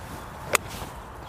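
A golf club strikes the ball in one crisp, sharp crack on a golf course, a cautious layup played to about 100 metres on a hole guarded by five bunkers. The strike stands alone over a faint, steady background.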